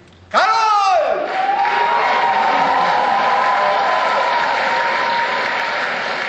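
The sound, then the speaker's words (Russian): A theatre audience bursts into loud applause and cheering at the end of a staged play by Mikhail Bulgakov about Molière, at the Maly Theatre. A brief shouted voice opens it, then a dense, sustained ovation slowly eases off. “Вот так, аплодисментами конца спектакля начинается постановка Мольера в Малом театре.”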